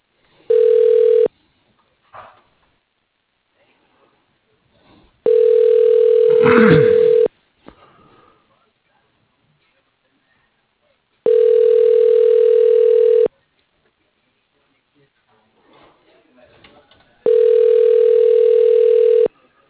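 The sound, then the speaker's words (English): Ringback tone of a call to an office desk extension: four long, steady rings at an even spacing, separated by near-silent gaps with faint scattered noises. “For Mike, dial 16. For Jeff, dial 17.”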